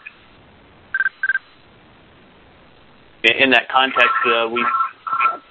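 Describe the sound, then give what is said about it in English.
A phone rings in the background of a conference call: two short, bright tonal pulses sound close together, followed after a pause by people talking over the line. “can somebody mute their phone that has a phone ringing in the background, please?”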